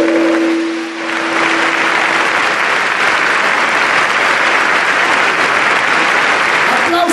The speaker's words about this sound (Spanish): A sus hijos, esos aplausos para sus hijos.